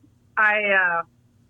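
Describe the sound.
A single loud cat meow, one sustained, steady-pitched call of under a second with a clear harmonic tone, alone against near silence.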